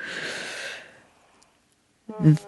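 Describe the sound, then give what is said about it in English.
A deep breath taken during a guided breathing exercise, a breathy rush lasting under a second that fades into silence, then a brief voiced sound. “Okay, let's breathe very deeply.”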